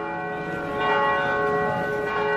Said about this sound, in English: Bells ring out near the Palazzo Vecchio in Florence.